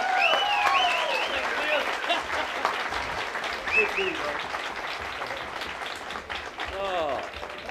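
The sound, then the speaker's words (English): Steady applause from an audience welcoming performer Mac Wiseman on Father's Day, dense clapping that holds at an even level across the whole span. “Let's give him a nice hand here today, Mac Wiseman. Make him welcome.”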